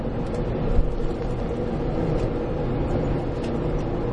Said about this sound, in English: Sorry, I'm actually doing the horrible thing of eating while driving, while podcasting.